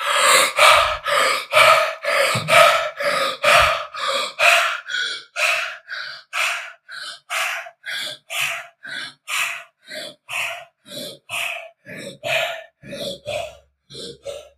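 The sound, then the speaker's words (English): Rapid, rhythmic breathing from a breathwork exercise: many strong, evenly spaced breaths in and out follow one another at a steady pace with no talk. “Now, we will go into round 2 and then round 3, repeating the 30 breaths and then holding our breath as deep as possible.”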